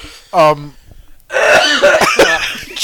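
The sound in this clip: Someone clears their throat with a short, rough vocal burst, followed after a brief pause by people talking.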